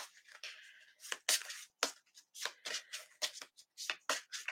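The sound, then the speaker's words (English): Tarot cards handled and drawn from a deck, many soft, crisp papery swishes and flicks in an uneven rhythm, faint and without talk. “I am going to pull one card for the collective. One card for the collective.”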